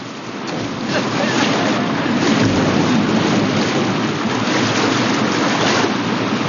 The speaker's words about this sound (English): They paddle frantically and slide over a rocky shelf.